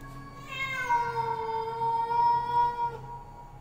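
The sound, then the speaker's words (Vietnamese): A black cat yowls eerily in one long, drawn-out cry with a clear tonal pitch that swells early and then holds steady before breaking off, loud over a faint low hum. “Trước khi gieo mình ra ngoài, nó còn đứng đấy quay lại nhìn lão Tâm chằm chọc mà kêu lên mấy tiếng rợn cả người.”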